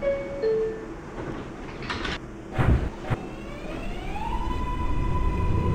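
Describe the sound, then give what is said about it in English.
Subway train doors closing, with a few sharp knocks and thuds in the middle of a steady hum, followed by a rising tonal whine. “next stop is Broadway. Stand clear of the closing doors,”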